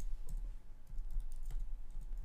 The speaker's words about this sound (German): Jetzt muss ich mal eine Sache kurz googeln.